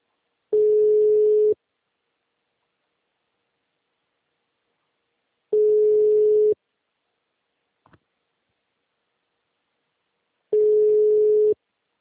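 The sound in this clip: An unanswered telephone call gives three steady ringback tones, each about a second long and spaced roughly five seconds apart. Silence fills the gaps, with one faint click between the second and third tones.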